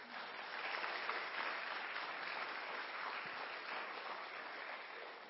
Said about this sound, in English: And all God's children said, amen. Let's give the kids a hand.